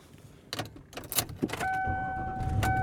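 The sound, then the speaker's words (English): Car sounds: a few clicks and a jangle of keys, then a steady engine drone with a thin tonal whine that continues to the end at moderate loudness. “And I am driving home.”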